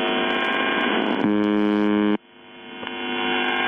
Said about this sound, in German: Auf 4625 Kilohertz, also Kurzwelle, sendet seit den späten 70ern eine Station, die nichts anderes tut, als diese Geräusche auszustrahlen. Ungefähr 25 Mal pro Minute rund um die Uhr